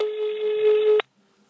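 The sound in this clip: A single telephone tone sounds as a call is placed. It is a steady, buzzy tone about one second long that cuts off abruptly, followed by near silence.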